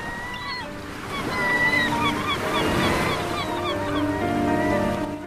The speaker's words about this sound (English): seagulls hover over rolling waves.